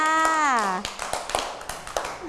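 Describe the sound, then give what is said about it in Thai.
A few scattered hand claps, an audience applauding a young child, follow a short spoken voice; the claps come as several separate, uneven taps rather than a full ovation. “คุณแม่ทำให้น้องเก่งมากเลยค่ะปรบมือให้กับน้องข้าวเมาหน่อยค่ะ”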